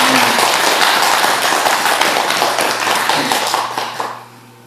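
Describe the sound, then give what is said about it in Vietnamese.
Enthusiastic audience applause at a Vietnamese community event honoring a Buddhist pagoda. Dense clapping holds steady, then tapers off quickly near the end, with a low steady hum underneath. “Quý vị hãy cho một tràng vỗ tay thật lớn để”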